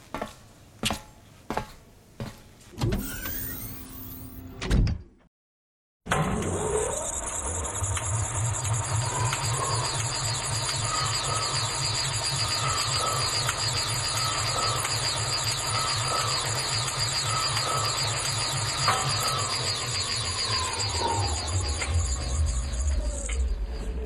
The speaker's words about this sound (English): Stand by for portal closure. Standing by. The portal is closed.